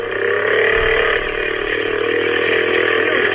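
The engine of a small boat runs steadily as a loud, continuous buzzing drone, holding an even pitch with only slight shifts throughout.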